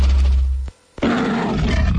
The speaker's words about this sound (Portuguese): Na época do imposto de renda, todo mundo tem medo do leão. Mas o que pouca gente sabe é que com solidariedade, o leão pode virar um aliado do bem.